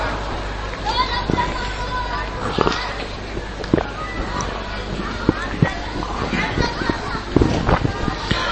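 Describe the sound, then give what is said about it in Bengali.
Children making noise in a room: a continuous hubbub of young voices and chatter with scattered sharp cries and thumps, and a voice talking over the babble throughout. “ভাই বাচ্চাদের একটু আওয়াজ কমানোর জন্য চেষ্টা করো, কেউ ওইদিকে মারধর না করা, বকাবকি না করা, ওরা যেন আওয়াজ না করে।”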